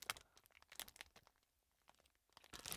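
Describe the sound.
Someone bites and chews yangnyeom cheese kimbap with white sauce and garlic, making faint crunchy, crackling mouth sounds in scattered clusters with a quiet pause in the middle.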